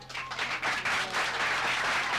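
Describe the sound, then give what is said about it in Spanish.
Audience applause following a song: a dense, steady wash of many hands clapping that holds at an even level from start to end, with no voices over it. “Los aplausos”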